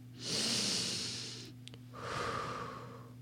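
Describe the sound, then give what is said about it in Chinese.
Deep breathing shown to a child as a way to calm down: one long, airy inhale, then a slower and softer exhale, faint and alone over a steady low hum. “深呼吸，”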